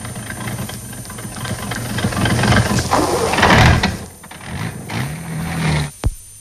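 A cold car engine is cranked and slow to start, making a laboured, churning rumble that swells, sags and surges unevenly, with a brief sharp knock near the end.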